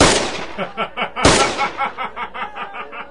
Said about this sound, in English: Why are you shooting over there, Bailey? I'm over here. Or is it over here?